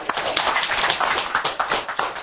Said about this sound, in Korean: 우리 지금 여러분들 각자 우리 박수로 부릅니다.